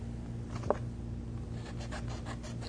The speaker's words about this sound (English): I'm simply just cutting around the black line that I just drew on the piece of cardboard.